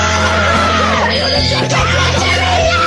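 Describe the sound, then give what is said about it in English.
A person screams loudly in a harsh, sustained, strained tone that carries through the whole clip with no pauses. “Are you gonna make me scream loud as fuck?”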